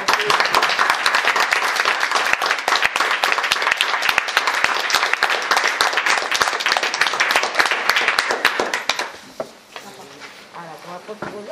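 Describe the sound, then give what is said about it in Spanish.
Applause at the end of a talk about female punk: dense, loud clapping for about nine seconds that then fades out, with voices talking afterward. “I crec que m'ha deixat un aplaudiment al menys.”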